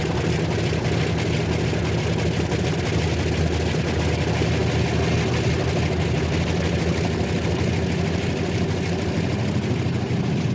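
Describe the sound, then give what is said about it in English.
Steady engine drone from a multi-engine propeller aircraft turning onto the end of the runway for takeoff. The roar is loud and continuous, with a deep low hum throughout and no voices. “The first aircraft that is going to lead the very front in the early hours of tomorrow morning is turning onto the end of the tarmac to make its takeoff.”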